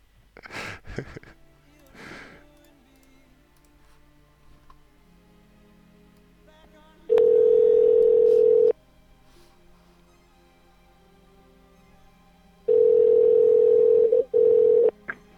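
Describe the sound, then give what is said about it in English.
A telephone dial tone after a call is disconnected: a few brief handling noises, then a steady single-pitch tone in two long bursts, the second briefly interrupted near its end. “I don't know what happened there, but the phone just got disconnected.”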